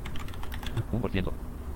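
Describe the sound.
Rapid, irregular clicking of typing on a computer keyboard while writing a tweet, the soft keystrokes running throughout with a brief murmured voice partway through.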